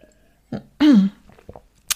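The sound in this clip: A single loud, rasping throat clearing, briefly voiced with a falling tone, with a few faint short mouth and breath sounds around it.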